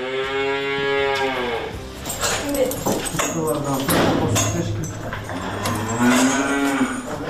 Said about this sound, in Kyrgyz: Так, вот эти у нас коровы, Анжела и Туча, они у нас очень с характером, такие, не принимают чужих людей.